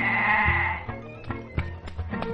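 A sheep being held for slaughter lets out a loud, wavering bleat at the start, followed by several short sharp knocks and scuffles.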